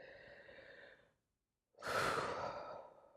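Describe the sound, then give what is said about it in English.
Deep breathing, two soft airy breaths split by a brief silence. The second breath is louder and longer, and no one talks. “Can we just take a moment and take a breath?”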